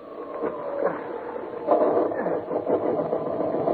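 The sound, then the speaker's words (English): A boat's motor is cranked into life, a rattling, uneven mechanical chugging that runs on and grows slightly rougher, moderately quiet and continuous throughout. “I'm going to make another attempt to get that motor working.”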